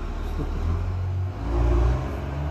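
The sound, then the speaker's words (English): Low, rumbling engine of a truck driving past, a steady drone that dips briefly and then swells louder before easing off. “wait till this truck goes by.”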